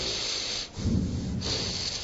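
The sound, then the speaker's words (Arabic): Deliberate breathing in and out: a steady, breathy rush of air that briefly drops away, then returns as a fuller, rougher exhale before steadying again. It is moderately loud, and no one talks over it. “تعمل كده تاخد نفس وطلع نفس”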